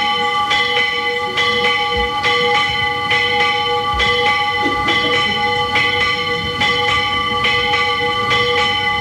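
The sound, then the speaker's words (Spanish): A convent church bell rings steadily, with many strikes in an even rhythm and long, humming overtones that ring on between blows, loud and alone on a worn tape. “Suena la campana de este convento.”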